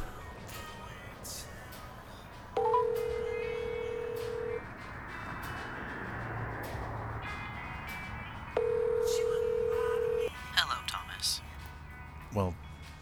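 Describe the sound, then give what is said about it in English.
A telephone call is placed: two long, steady, mid-pitched ringing tones on the line, a few seconds apart, followed by a few quick clicks and a brief chirp. “All right, I'll I'll give Lee a call.”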